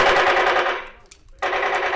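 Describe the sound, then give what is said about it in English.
Rapid bursts of gunfire during a soldiers' training exercise, fired while clearing rooms in an office and shooting at mannequins. The loud, rattling shots run continuously, break off in a brief lull, then start again sharply and keep going. “The soldiers check all of the rooms, moving through the office and shooting at mannequins.”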